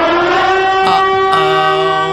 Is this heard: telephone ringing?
no

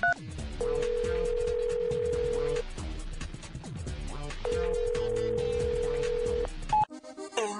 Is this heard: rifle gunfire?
no

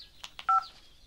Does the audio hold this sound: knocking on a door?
no

